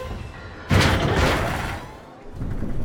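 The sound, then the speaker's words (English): A film sound effect of a lift hurtling backwards, then shooting up: a sudden loud whooshing boom that holds as a broad roar and slowly subsides, then swells again near the end, with no voices. “The lift hurtles backwards, then shoots up.”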